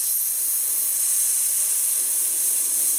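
A rider makes a long hissing sound through the teeth to slow a cantering horse, a steady, breathy, high-pitched hiss that holds even in loudness for about three seconds with nothing else audible.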